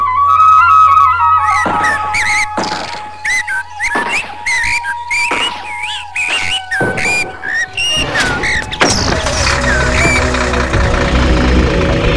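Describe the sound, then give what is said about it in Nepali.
Vehicles hauling timber, firewood, sand and gravel out of the Chure forest: high whistling tones over a low idling engine hum, then a loud, broad engine roar for the last few seconds. “आवाजहरू बिना कुनै अवरोध चुरे फडान गरी काठ दाउरा बालुवा गिट्टी उत्खनन गरी गइरहेका गाडीहरूका हुन्।”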